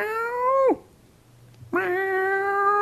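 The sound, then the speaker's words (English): A cat meowing: two drawn-out, clear harmonic meows separated by a short gap. The first ends in a sharp downward slide, and the second rises at its onset and then holds steady. “and I was like, oh, like that must be, you know, where's Teddy, which is the name of my cat”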